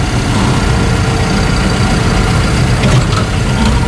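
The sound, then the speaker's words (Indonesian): A generator set runs in a generator room, giving a loud, continuous engine drone with a low rumble that holds steady without change. “Ini ruang genset. Dan ini LPG gas.”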